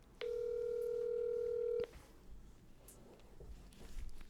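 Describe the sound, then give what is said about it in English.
A single steady electronic telephone tone sounds while a number is dialed, a clear pitched beep lasting about a second and a half before cutting off, followed by faint background noise. “It's a real number, right? Because it's dialing.”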